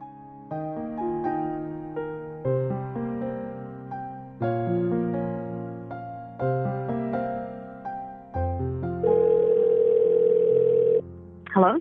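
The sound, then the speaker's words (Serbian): A telephone tone sounds while a call is being placed. It comes after several seconds of music: a steady, unbroken mid-pitched tone holds for about two seconds, then cuts off sharply. “Sada ćemo je pozvati telefonom.”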